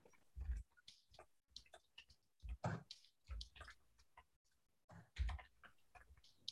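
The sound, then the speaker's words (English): Clicks of typing on a computer keyboard come in a few quiet, irregular bursts with short pauses between them. “Let me type this in here so you guys can Google this”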